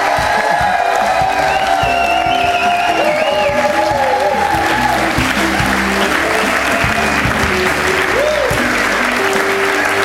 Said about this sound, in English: Andy, you come on, give him a round of applause as he comes to the stage. Come on, give him a warm welcome.